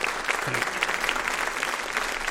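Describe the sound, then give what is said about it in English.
Audience round of applause for a performer, a dense, steady patter of many hands clapping at an even level with no voices breaking through. “Ladies and gentlemen, big round of applause to Susan Murray.”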